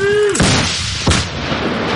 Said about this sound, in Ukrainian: Постріл! Постріл!